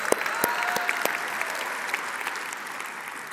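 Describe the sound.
Dense audience applause welcomes visitors at an Indiana Wesleyan University gathering, a steady wash of many hands clapping at even loudness for the whole stretch.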